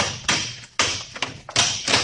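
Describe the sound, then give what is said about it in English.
A lock being smashed with repeated heavy blows: several sharp, hard thuds in an uneven rhythm, each dying away quickly before the next strike. “Smash that lock.”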